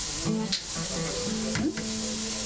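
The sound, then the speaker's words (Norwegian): Bacon browning in a frying pan gives a steady, continuous sizzle with soft crackles that runs unbroken from start to end. “baconet skal vel brune litt først”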